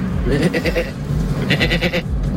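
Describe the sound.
A man imitating a goat's bleat with his voice, two wavering, quavering cries, each about half a second long, with a short pause between them.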